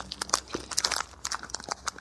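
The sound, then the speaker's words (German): Crinkling of a wrapper and crunchy bites from a Timeout chocolate bar: many small, irregular crackles and crunches, faint and close together, with no talking. “Ich nehme mir mal was zum Essen. Zum Naschen. Das ist ein Schokoriegel. Ja, mal gucken, wie das schmeckt.”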